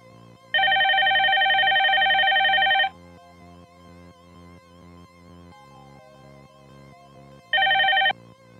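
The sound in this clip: A telephone bell rings in two bursts, one long trill and then a shorter one after a pause, loud over a steady low background.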